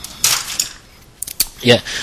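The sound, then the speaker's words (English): A microwave oven door is opened, giving a few sharp clicks and light metallic rattles separated by short pauses. “I've just opened the microwave and looked in.”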